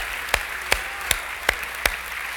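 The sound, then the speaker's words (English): Hands clapping in unison at a church gathering, five sharp claps struck at an even, steady beat over a low background hiss, with no voices. “Now clap your hands, all you people, and shout unto God with a voice of thunder.”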